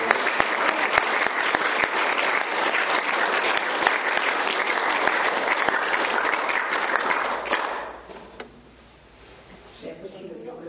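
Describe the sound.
Audience applause at a public talk: dense, sustained clapping holds steady for about eight seconds, then dies away to near quiet.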